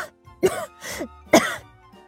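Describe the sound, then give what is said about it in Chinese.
Choking coughs after gulping down a glass of beer too fast: three short, stifled, throaty coughs in quick succession. “喝得太急以至于有些呛到，努力忍着咳嗽对梨说”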